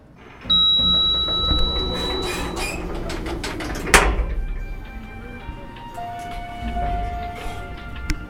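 Elevator chime tones ring out, a bright chime near the start and a lower tone later, over a low mechanical rumble.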